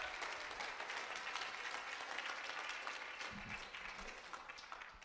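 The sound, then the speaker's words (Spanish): An audience claps in praise during a bilingual church service, a sustained, dense patter of many hands at a fairly low level, easing slightly toward the end. “Dale palmas a Dios. Give him praise.”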